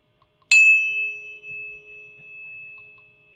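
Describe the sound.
A single struck 432-hertz healing tone rings out with a sharp onset, then holds as a clear, bright steady pitch over a soft low hum, slowly fading on its own.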